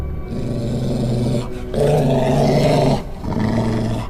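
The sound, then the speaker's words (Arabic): A dog growls, low, rough and loud, in three sustained stretches separated by brief pauses, with no voices present. “بدأت أسمع صوت زي صوت كلب ورايا.”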